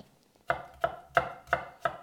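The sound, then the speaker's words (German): A knife chopping garlic: five crisp, quiet chops at an even, steady rhythm, with no talk. “bin noch gleich fertig mit Knoblauch schneiden.”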